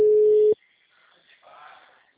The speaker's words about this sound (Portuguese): Tô ligando, não tá chamando. Não tá chamando, tô chamando aqui, mas não tá indo.